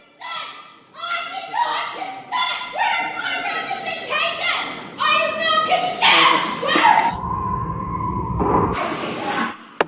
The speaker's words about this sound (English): Listen to that wailing.